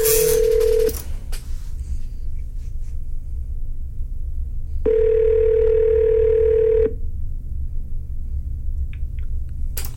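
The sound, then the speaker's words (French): A telephone calling out to a caller's number: a brief steady tone at the start, then a single two-second ringback tone in the middle, both clear and evenly pitched, over a low constant hum. “nous allons l'appeler à l'instant cette personne au numéro qui est affiché ici comme ça.”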